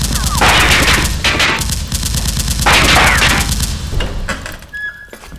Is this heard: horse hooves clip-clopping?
no

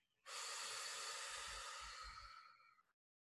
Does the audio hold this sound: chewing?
no

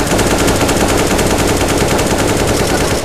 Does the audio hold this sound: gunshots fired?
yes

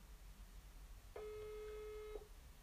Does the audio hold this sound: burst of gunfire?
no

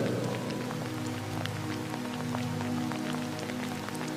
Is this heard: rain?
yes

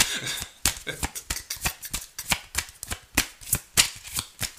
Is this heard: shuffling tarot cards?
yes

